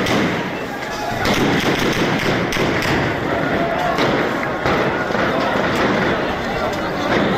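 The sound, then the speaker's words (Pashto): Gunfire during clashes between protesters and police in a bazaar in Shangla, Pakistan, during an election dispute: a loud, dense din with a few sharp cracks and thuds standing out from continuous crowd noise. “دغه د زنده شنګلې پالپورې بازار کې د مظاهره چانو او پولیس ترمنځ انخطو کې د ډزو اوازونه دي.”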